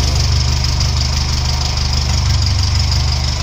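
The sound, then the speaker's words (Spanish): Engine of a SEAT 600 car running steadily, a low, even putter with a quick, rhythmic knocking pulse at constant loudness, alone and without voices. “dio paso al sonido del motor de un 600 como este”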